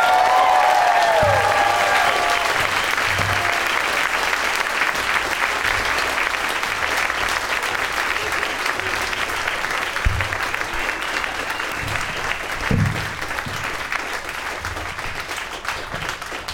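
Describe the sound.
An audience applauds as three guests come on stage, producing dense, continuous clapping at a strong, steady level that eases off slightly toward the end.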